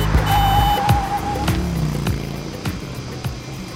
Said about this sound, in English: Bumping around in an auto rickshaw. Whoa, oh, oh. Yeah, an auto rickshaw.